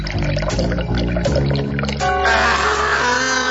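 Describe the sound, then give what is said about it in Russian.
Water poured out of a bucket down a stairwell makes a steady, dense rushing splash that holds at an even loudness throughout and grows brighter and hissier in its second half. “Я взяла ведро и отправилась на лестницу. Откинула железный ковш и вылила воду вниз.”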